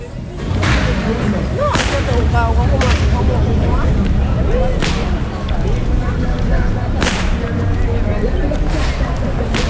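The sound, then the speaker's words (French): Sharp cracks of a carnival whip ring out several times at irregular intervals over a loud, continuous background of noise and voices. “J'ai un micro, j'étais là-haut, j'ai vu que tu faisais du fouet.”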